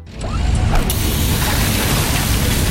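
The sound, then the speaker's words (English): A hydraulic hose bursts in a sudden loud rush of hissing, spraying noise. A few sharp mechanical clanks come early, then the roar stays steady and harsh to the end. “Oh, busted hose. This will cost me time and money, and take forever to get fixed.”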